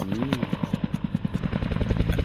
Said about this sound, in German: Das ist ein Helikopter im Anflug auf Stuttgart 21. Der landet im Tunnel.